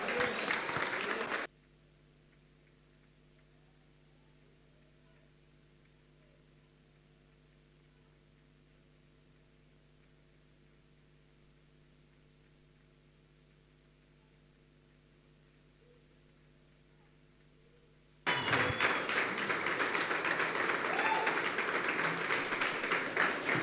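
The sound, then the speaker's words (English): A church audience applauds in a burst at the start. A long stretch of near-silence with a faint steady hum follows, then the clapping resumes loudly. “Let us put our hands together as we are expecting for the word of the Lord this morning.”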